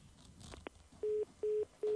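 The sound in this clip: Telephone line tones sound during a call transfer on a phoned-in call: three short, steady beeps of the same low pitch, evenly spaced, following a stretch of faint noise.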